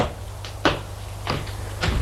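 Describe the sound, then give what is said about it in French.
A few dull knocks on a door, spaced apart and fairly soft, over a low steady hum with no voices. “Elle a frappé à la porte et se soulève. Oui, la porte.”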